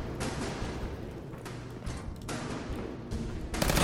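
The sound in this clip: Full-automatic gunfire in a video game firefight: a dense, continuous stream of rapid sharp cracks with a heavy low rumble, louder in its final moments.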